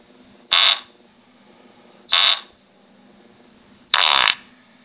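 Fart sound effect: three loud, short, buzzy blasts, each lasting under half a second and separated by pauses of over a second, over a faint steady background.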